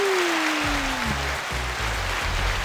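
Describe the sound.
Audience applause for a third anniversary celebration, dense and continuous, with a gliding tone falling early on and low thumping pulses underneath.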